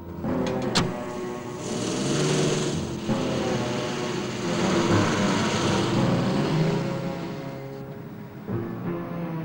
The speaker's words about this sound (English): He gets in the back of the car with Bond and they drive away.